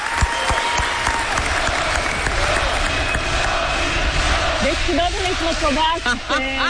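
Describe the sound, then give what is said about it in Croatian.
Audience applause mixed with loud crowd voices in approval, a dense clapping roar throughout with shouted, chant-like voices rising above it in the final seconds. “I dobili ste ovaj, imamo tri pljeska. Jedan pljesak je onako, ajde, dobro je, a vi ste dobili skandiranje.”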